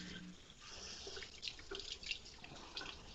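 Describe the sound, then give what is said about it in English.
Running tap water as a beer bottle is rinsed out beneath it, a steady rushing splash with brighter gurgling spurts as the flow hits the glass. “No, nope. I'm rinsing out a beer bottle.”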